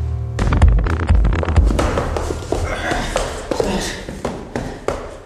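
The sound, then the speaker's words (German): Footsteps in a hallway, varied and uneven: many thudding and tapping steps in an irregular rhythm, fairly loud throughout. “Ein Mann in den besten Jahren? Ein alter Mann? Unterschiedliche Schritte.”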